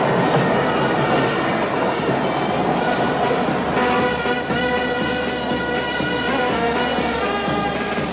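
A train arrives at a crowded railway station in Calcutta with a loud, continuous rolling rumble of wheels and carriages. Steady ringing metallic tones run over the rumble throughout.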